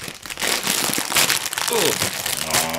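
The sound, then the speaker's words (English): A plastic snack bag is ripped open at both ends, giving a dense, crackly crinkling and tearing that runs almost without break, loud throughout, with a brief voice partway through. “That's the bag structure integrity. Rip that bag on both ends.”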